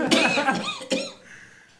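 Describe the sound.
Two harsh, rough coughs burst out, the first longer and raspier, the second a short sharp hack, then trail off into faint breathy noise.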